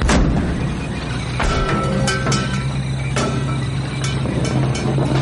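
Artillery guns firing shells, with many sharp, loud blasts breaking through a constant heavy rumble that fills the whole stretch without pause.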